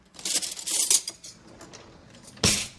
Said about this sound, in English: Okay, let me grab some spoons.